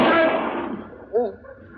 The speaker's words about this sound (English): Mr. Dillon, did you shoot him in the arm of purpose? Matter of fact, Chester, I was aiming for his other arm.